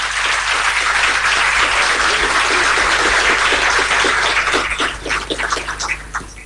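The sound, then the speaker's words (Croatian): Audience applause honouring an absent blood donor at an award ceremony, dense and loud clapping that holds steady, then thins into scattered individual claps and fades near the end. “Pozivam vas da pljeskom odamo priznanje i gospodinu Pileku.”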